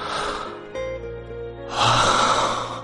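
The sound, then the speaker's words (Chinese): A deep breath: after a quieter stretch, a loud, airy rush of breath swells and carries to the end over low sustained tones. “孟昭睁开眼睛深呼吸一口气，勉强让自己的理智归位。”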